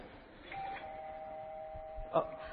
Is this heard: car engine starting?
no